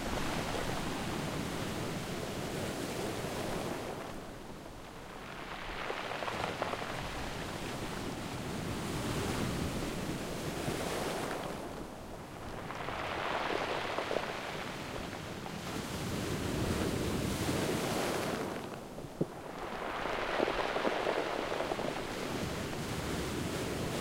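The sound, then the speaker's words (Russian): Waves roll onto a pebble beach below landslide slopes and drag back over the stones, a few broad hissing surges that swell and fade in a slow, steady rhythm. “Волна на камне накатывается, и при отступании волны очень интересный звук.”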